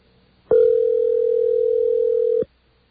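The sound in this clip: A single steady telephone tone sounds alone, loud and even in pitch, lasting about two seconds before it cuts off, with quiet before and after.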